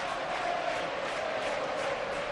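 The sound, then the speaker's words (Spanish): Football stadium crowd roaring as excitement builds during a match involving Alavés, a broad, steady wash of many voices with no single voice standing out. “Ahí va Fausto que va a poner la pelota arriba. El público también se viene arriba.”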